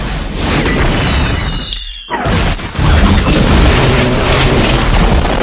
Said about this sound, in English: Since I'm the god of this universe, missile strike.